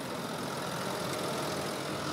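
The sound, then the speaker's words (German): A tractor engine runs with a steady, even rumbling drone while an eleven-year-old boy drives it across the fields, fairly faint and without speech. “11 Jahre alt, fährt den Traktor.”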